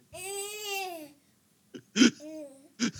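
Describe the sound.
A young daughter babbles, picked up through audio feedback: a long wavering high-pitched vocal sound, then after a pause a few short bursts of babble and whimpering.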